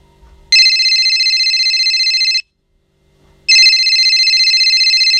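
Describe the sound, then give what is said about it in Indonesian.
Electronic telephone ringtone sounds as a call is placed: two long, loud, steady bursts of bright tone, each about two seconds, separated by a short silence. “Lalu, ia berpikiran untuk menelpon Arsen.”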